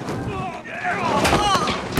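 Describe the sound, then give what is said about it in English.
Gunshots fly during a police chase as a man fires back at an officer, a few sharp cracks standing out over a busy, noisy background. “The man shoots back at him and misses.”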